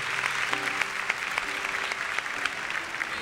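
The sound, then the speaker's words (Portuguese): A church audience claps strongly in praise of the Gospel reading, a dense and steady applause that holds at an even level from start to finish. “Aplauda forte. Aplaudamos o Santo Evangelho.”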